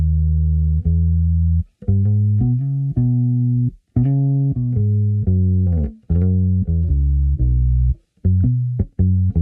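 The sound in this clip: Electric bass strung with flatwound strings, played slowly: a sequence of many low, sustained notes, each starting with a distinct attack and separated by brief gaps, with no talking.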